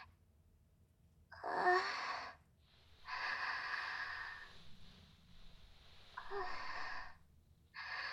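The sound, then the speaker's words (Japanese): Deep breathing from someone with a painful, aching stomach: a sharp inhale, a long airy exhale, then another quick inhale. The breaths are faint and heard alone without talk. “深呼吸。”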